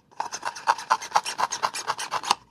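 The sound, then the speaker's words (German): Sharp knife sawing off the bottom third of a container with a screw-on lid, heard as many quick, rhythmic rasping strokes of steady loudness with no talk. “Und da schneide ich ein Drittel etwa ab. Und darum braucht es auch ein scharfes Messer, weil es braucht gerade ein bisschen Kraft. Dann schneide ich ab.”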